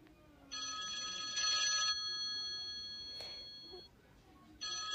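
Phone ringtone ringing: a steady, bright multi-tone ring lasts over a second, a fainter tone lingers through a pause, then a new ring begins at the end.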